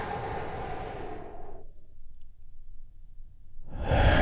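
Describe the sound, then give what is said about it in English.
A deep breath during a guided breathing session: a long, airy, rushing breath fades into near silence, then another full breath swells up at the end. “Take another big, deep, healing breath with me all together. Here we go.”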